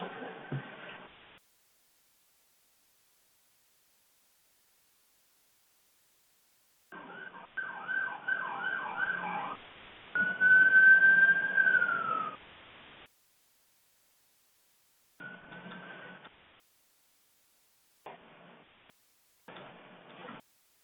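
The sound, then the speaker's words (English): An ambulance siren goes by, its wailing tone heard in broken, intermittent bursts through a crackly, dropping-out line full of static and gaps of silence. “Sorry, we have an ambulance going by.”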